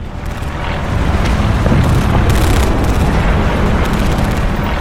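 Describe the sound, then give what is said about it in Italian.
Bombs from US Air Force B-52 Stratofortress bombers explode in a secret raid near the Cambodian border. A loud, continuous, rumbling roar of overlapping blasts swells in over the first second and holds steady, with no separate distinct booms. “59 B-52 Stratofortress della US Air Force colpiscono segretamente l'area 353 nella regione che gli americani chiamano Fishhook, al confine con la provincia sud vietnamita di Thai Ninh.”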